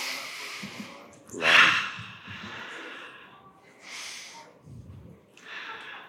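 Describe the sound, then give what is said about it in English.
Slow, deep breaths taken together at the start of a guided session: a few airy inhales and exhales rise and fall in long swells, one louder breath standing out early. “Let's take some nice big deep breaths together.”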